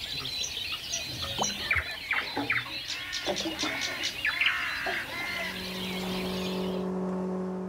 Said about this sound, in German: Und die Vögel sind mit uns. Alle Menschen schlafen und jetzt ist es ganz toll, hier zu sein. Da ist die Nachtigall.